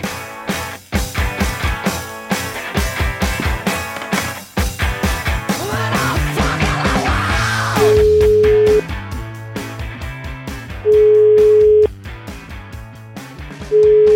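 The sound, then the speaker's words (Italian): Ringing tones of an outgoing telephone call: three long, steady beeps spaced a few seconds apart, the last one cut off, sounding over loud rhythmic music with heavy drums. “Chiamiamo Etro, grande protagonista. Raimondo Etro, ex brigatista. Vai.”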